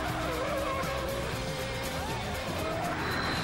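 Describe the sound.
Car tyres squealing as a white Mini skids about, wavering high-pitched squeals over engine noise and a loud, continuous crowd roar.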